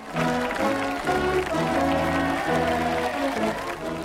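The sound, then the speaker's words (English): A brass band plays steady, tuneful music as adults and children clap along, the applause soft beneath the brass throughout. “Adults and children are smiling and clapping as the brass band plays on.”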